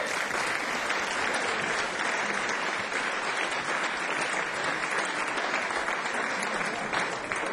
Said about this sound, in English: So please give them a hand once again.